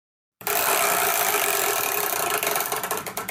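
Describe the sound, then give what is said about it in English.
A chore wheel being spun gives a rapid, continuous ratcheting clatter that starts abruptly. Toward the end it breaks into separate clicks that slow down. “would it be possible if you guys could spin that dang old chore wheel?”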